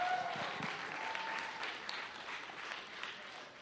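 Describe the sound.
An audience claps to welcome students onto a stage, the applause steady and fairly soft, easing slightly toward the end.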